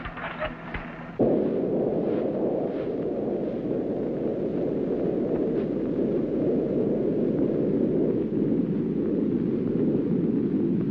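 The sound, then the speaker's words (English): Spaceship rocket engines firing at full power as the craft descends toward a lunar crater, a dense, loud, steady roaring rush that bursts in abruptly after a short lead-in and holds unbroken for about ten seconds. “Main rockets up full.”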